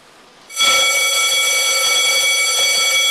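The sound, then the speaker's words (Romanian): A fire station alarm sounds to call CBRN firefighter crews at a new station in Jilava: a loud, steady, high electronic tone that starts abruptly after a quiet moment and holds without a break. “Aceasta este alarma pe care o vor auzi pompierii nou mutați în subunitatea pentru echipajele CBRN în momentul în care va fi nevoie de intervenția lor.”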